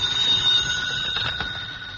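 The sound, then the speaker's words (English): A telephone rings with a continuous, high metallic bell tone that holds steady for the whole stretch at a moderate level. No voices are heard over it. “Your phone should ring soon. Soon. There it is.”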